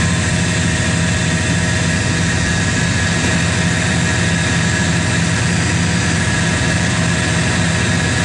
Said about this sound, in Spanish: Escuchemos el audio ambiente de las turbinas de este avión.